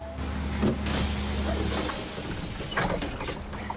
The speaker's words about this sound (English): an approaching coach, which pulls to a stop.